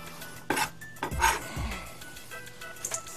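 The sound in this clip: Ingredients for a chocolate recipe, including about a tablespoon of butter, being put into a bowl, with a few clinks of dishes and utensils and soft low thuds, fairly quiet and without talk.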